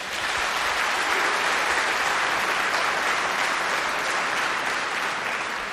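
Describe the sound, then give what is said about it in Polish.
Studio audience applause at a radio concert event, a dense, steady wash of clapping that holds at an even level for the whole stretch, with no voices over it. “Bardzo proszę o brawa raz jeszcze.”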